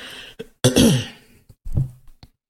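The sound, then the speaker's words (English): Throat clearing from a man with allergies or a cold: a couple of rough, rasping bursts with a few smaller catches around them, standing alone with no talk. “And pardon me, I think this is allergies. I think this is cold. One of the two. So pardon me as I clear from time to time.”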